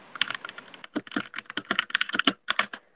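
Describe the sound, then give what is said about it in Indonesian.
Fast typing on a computer keyboard, space bar included, heard alone as many crisp, uneven keystroke clicks in quick bursts with brief pauses between them. “Sebenernya kalau space itu ternyata enak buat kayak keyboard ASMR ya? Iya, kalau kamu naruh apa mikrofonnya dekat keyboard.”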